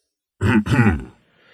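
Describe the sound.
A throat clearing in two rough, gravelly bursts, the second longer and fading out, heard alone against silence.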